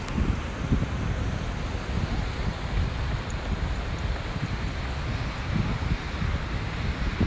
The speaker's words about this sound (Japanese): 今ねシドニーのボンダイビーチっていうところにいますビーチの波の音聞こえますでしょうかね